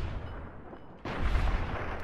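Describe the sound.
A gunshot in a video game, fired at an enemy's head: one abrupt, fairly faint blast about halfway through, its noisy tail holding steady to the end over a low background hum.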